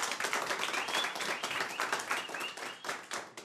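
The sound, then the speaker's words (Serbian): An audience claps and applauds for an accordion player at a tavern table. Rapid, dense claps run throughout at a fairly low level. “jedan veliki aplauz, molim vas”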